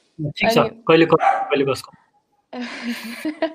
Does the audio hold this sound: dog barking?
yes

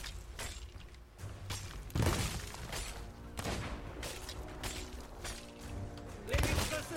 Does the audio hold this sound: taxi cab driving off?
no

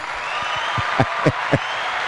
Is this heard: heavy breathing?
no

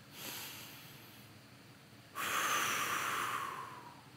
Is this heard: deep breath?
yes

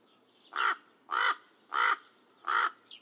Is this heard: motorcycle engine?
no

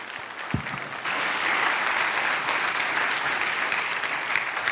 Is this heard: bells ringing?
no

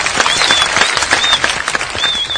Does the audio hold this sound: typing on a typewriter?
no

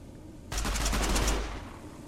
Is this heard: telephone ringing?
no

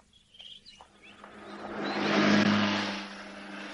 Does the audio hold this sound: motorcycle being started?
yes

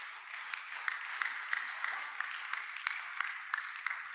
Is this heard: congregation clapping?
yes

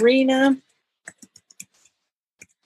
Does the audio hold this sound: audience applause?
no

